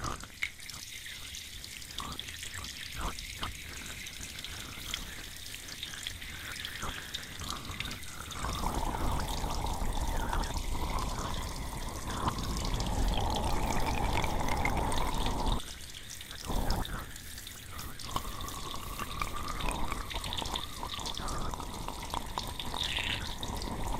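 Warm water runs and splashes during a hair wash, a continuous trickling, spattering rush that shifts in intensity and grows fuller and louder through the middle stretch, with no voices.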